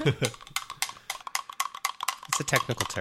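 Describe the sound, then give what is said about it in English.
Spoon stirring chocolate syrup into milk in a glass, making rapid, irregular clinks and taps against the glass while people talk over it. “Stirring. The sound you hear is a spoon.”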